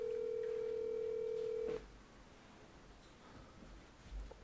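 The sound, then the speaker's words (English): An outgoing phone call rings out unanswered: a single steady ringback tone holds for nearly two seconds, then the line falls to faint, quiet hiss. “Who are you calling? We're calling your wife.”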